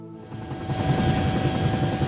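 A helicopter flying over a large fire gives a steady whirring drone with a low rumble and a sustained whine, growing slightly louder and then holding even.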